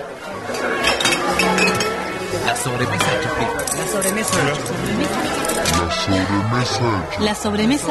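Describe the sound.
Glass clinks and tableware taps sound at a relaxed after-meal table where beer is being opened. The bright, scattered clinks repeat many times under continuous talking voices.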